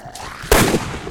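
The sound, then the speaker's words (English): A sharp, loud pistol shot from a zombie video game cracks out midway, its burst lingering briefly before fading into the game's background. “So this is also a pistol. I'll tell you when I switch categories, but let's see if I can get this guy so I can shoot at him.”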